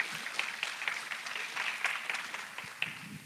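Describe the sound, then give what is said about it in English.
An audience claps at a service to welcome a speaker, a short burst of dense, steady applause. “I thought I would have got more of a rousing ovation compared to the first service.”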